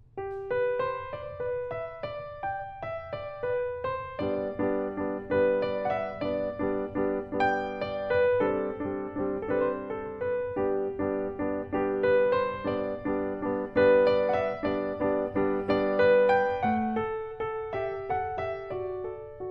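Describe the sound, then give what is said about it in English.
Piano left-hand repeated chords played without the sustain pedal, kept smoothly connected. Many evenly pulsed chords sound in a steady rhythm, with melody notes shifting above them, alone and at moderate loudness. “Here is with no pedal, listen to how connected it's possible to play those left-hand repeated chords.”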